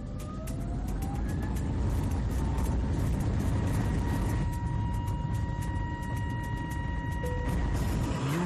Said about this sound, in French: Paré pour le décollage.